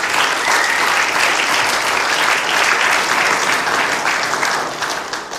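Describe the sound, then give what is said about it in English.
Audience clapping, a dense, sustained wash of applause that holds steady and eases slightly at the end. “I have more to say, so you guys got to stop clapping, all right?”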